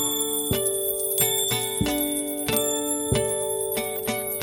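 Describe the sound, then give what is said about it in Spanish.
Small bells ringing in a bright musical pattern, many repeated metallic strikes over sustained ringing tones, at a moderate, fairly steady level. “los enanos van entrando, campanitas van sonando”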